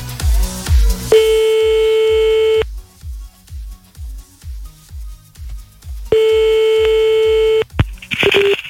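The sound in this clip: Telephone line tones while calling back: two long, steady beeps separated by a gap, over a rhythmic low thumping beat, with a short burst of noise at the end.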